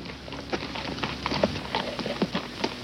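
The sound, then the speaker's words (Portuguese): Clip-clop hoofbeats of a horse pulling a wagon along a road, an irregular run of many hollow knocks with a faint steady background rumble and no talk. “Vocês passam mais um dia na carroça. Nesse segundo dia de viagem, vocês andam tranquilos de carroça pelas estradas.”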